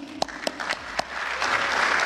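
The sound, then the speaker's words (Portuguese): Applause for Minister Fux during a speech. A few separate claps come first, then many hands join into a dense, steady round of clapping that grows louder toward the end. “Palmas para o ministro Fux.”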